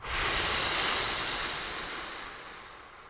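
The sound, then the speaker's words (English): A single big breath blown out during a guided breathing exercise, a loud airy hiss that starts suddenly and then fades slowly over a few seconds, heard alone without talk. “Big inhale and blow.”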